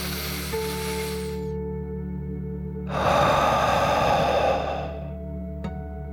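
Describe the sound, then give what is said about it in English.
A deep breath in and out during a children's guided relaxation: a long, soft, breathy intake, a pause, then a louder, fuller exhale, over steady sustained musical tones. “Are you ready to take one more deep dragon breath? Here we go. Deep breath in and out.”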